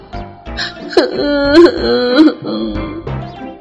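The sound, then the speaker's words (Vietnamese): Loud wailing of a small child crying after being spanked, the drawn-out sobbing voice rising and falling in pitch across several strained bursts. “Tiểu tứ tử bắt đầu khóc thật rồi, cái mông đau lại còn ủy khuất”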